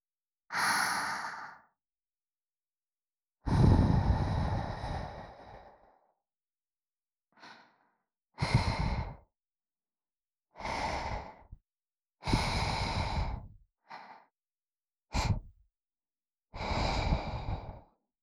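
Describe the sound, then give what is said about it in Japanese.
Soft breathy puffs of air blown gently into the listener's ear in an ASMR session, a series of airy whooshes of varying length separated by silent pauses, some long and some very short, with no talk. “それでは、こちらも、右耳の時と同じように、お耳フーフーから、していきますね。”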